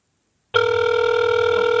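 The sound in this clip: A telephone rings out on an outgoing call after a short silence. The tone is steady, buzzing and harmonic-rich, and it continues unbroken and alone to the end.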